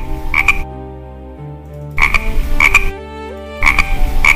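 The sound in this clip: Frog croaking in three dense bursts separated by quieter gaps, each a rapid run of rasping calls laid over steady, sustained tonal sound.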